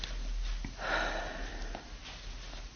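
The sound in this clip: A sharp sniffing inhale through the nose, a single short burst near the middle over faint background hiss, with no talk.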